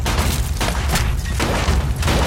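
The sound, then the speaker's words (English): Gunfire exchanged across store shelves during a robbery between a cop and a robber: several sharp, loud booming shots in quick, uneven succession over a continuous noisy rumble. “They exchange gunfire over store shelves.”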